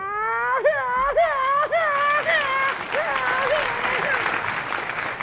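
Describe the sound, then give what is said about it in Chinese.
Audience applause during a comic performance at a Spring Festival Gala: steady clapping under a performer's voice, which gives a series of repeated warbling calls imitating a bird. “您别鼓掌了”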